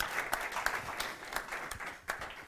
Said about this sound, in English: Should we give them a round of applause?